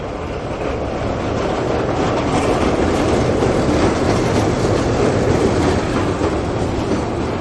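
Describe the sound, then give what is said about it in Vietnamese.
A train rolls into a city with a steady, heavy rumble and a running clickety-clack of wheels on rails. The sound holds at an even level throughout, with no talking. “Tàu đang vào thành phố.”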